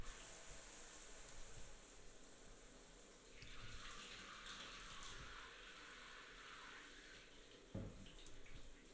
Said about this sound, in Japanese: お流しします。